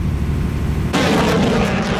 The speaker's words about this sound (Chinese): 随着射击指令的下达，远程多管火箭炮对海上靶标实施精确打击。